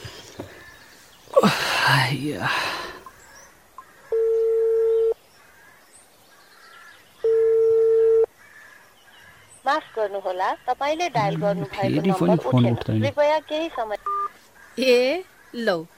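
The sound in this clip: Phone ringback tones on a mobile call, placed while sitting on a house's front veranda: two steady, moderately loud electronic beeps, each about a second long, with people talking before and after them.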